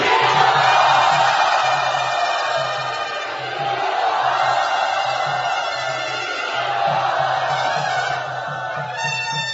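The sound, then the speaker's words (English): Loud crowd cheering and shouting a welcome to a newly arrived guest at a devotional gathering at Sri Radha, marking the start of his association with the group. The enthusiastic roar is sustained throughout, with a steady rhythmic low pulse underneath. “Let us very loudly and enthusiastically welcome him to Sri Radha.”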